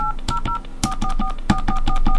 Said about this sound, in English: To place a call, please dial the area code and number you are calling.